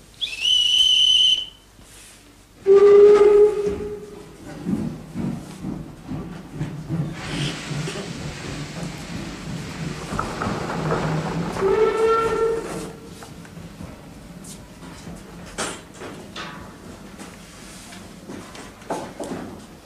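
Steam train whistle at departure: a high shrill blast, then a lower, louder whistle, with steam hissing and rumbling after it and a third whistle blast later, fading to quieter hiss and clanks.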